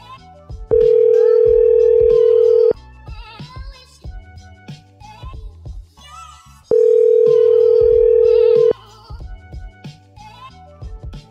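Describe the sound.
A telephone tone while a call is placed during a radio prank call: two long, steady mid-pitched tones of about two seconds each, separated by a gap of several seconds filled with quieter sound.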